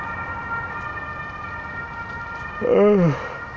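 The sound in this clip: Emergency vehicle siren outdoors while walking through a park: steady high electronic tones run throughout, and near the end a brief swooping voiced sound imitates the siren.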